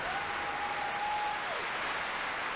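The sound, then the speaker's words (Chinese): Audience applause after a two-man singing performance: a dense, steady wash of clapping that holds an even loudness from start to finish, with no voices. “掌声这么激烈，并不是俺们哥俩唱的好”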